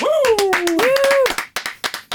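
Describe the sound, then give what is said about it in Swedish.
Odd, sparse applause welcoming a guest to a training facility, opening with a loud, wavering tonal sound, then a few separate sharp claps spaced unevenly. “Ovanliga applåder, eller?”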